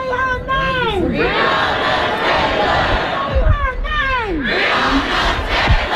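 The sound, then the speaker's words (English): Protest crowd shouting: many voices raise loud, continuous cries, with two prominent shouted phrases that swoop downward in pitch over a dense roar of voices. “Sometimes protest sounds like this.”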